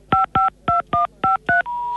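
Telephone keypad tones are played as a melody: six short, evenly spaced beeps at shifting pitches, then one longer sustained tone. The tones are loud and clear, with no talk.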